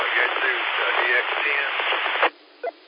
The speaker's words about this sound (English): I just heard you throw your call out there. White noise.